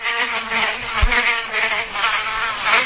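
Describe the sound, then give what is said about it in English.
A fly buzzes in a continuous, steady drone that swells and fades slightly in loudness, with no other sounds. “I'm going to say a fly.”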